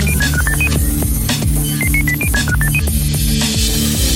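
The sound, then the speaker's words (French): A telephone number is dialed from a studio control room as two quick runs of high keypad beeps, a short run and then a longer one, over a dense, steady background. “je crois qu'il est grand temps que la régie compose le numéro.”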